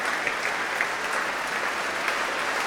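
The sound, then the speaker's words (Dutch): Audience applause for the trombone section after a symphony performance in Amsterdam: dense, steady clapping holds at an even level throughout, with no talk over it. “Ja, groot applaus ook voor de trombones.”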